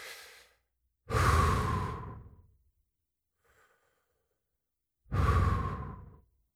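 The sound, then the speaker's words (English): Deep breaths being taken slowly: two long, loud, breathy exhales stand well apart, with fainter breath sounds at the start and in the gap between, and no talking. “Let's take a few breaths together. I'm a little excited today. Take a few breaths.”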